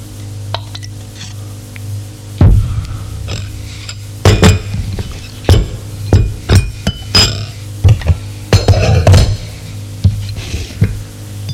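Cups, dishes and spoons clink as tea with sugar is served, with many sharp, bright chinks and light stirring scrapes at irregular intervals, fairly loud and without talk.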